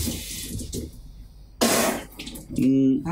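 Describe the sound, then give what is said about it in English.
A voice imitates water running from a sink faucet, giving a soft hiss, then a sudden louder rushing burst as if the pressure surges, and ending in a short voiced, humming tone. “It sounds like the sink's running. It sounds like the sink all of a sudden, like, the pressure just gets a lot more. I can do it. It's like this.”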